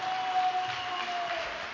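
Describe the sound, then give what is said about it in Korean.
Congregation clapping in thanks after a sermon: a soft, even patter of many hands that continues steadily throughout. “은혜의 말씀을 주신 이기성 전시 원장님께 다시 한번 감사의 박수 부탁드립니다.”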